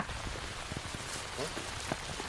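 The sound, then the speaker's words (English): Steady rain falling outdoors: a soft, continuous hiss scattered with light drop patters, faint overall, with a brief voice murmur underneath. “I'm ready to get out of this rain”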